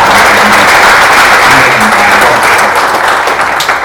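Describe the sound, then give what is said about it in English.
Loud, dense audience applause from many hands clapping at a college event, steady throughout with no break. “And so, again, if we could have a round of applause for Miami-Dade College.”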